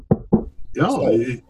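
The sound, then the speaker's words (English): Knocking on wood: two quick, sharp knocks, followed by a person talking. “God willing, knock on wood”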